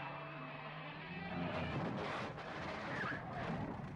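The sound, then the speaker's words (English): Car chase from the 1986 film Trick or Treat: a faint, steady wash of engine and road noise, swelling with rushing surges in the middle and never dropping out. “I think the whole movie's budget went to that right there. Car chase.”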